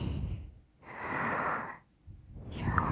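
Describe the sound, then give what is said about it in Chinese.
Forceful breaths drawn through the nose and mouth at once, three loud, airy rushes separated by short pauses, with no talking. “鼻子和嘴巴同时用力呼吸的话，你会闻到非常浓烈的味道。用力，”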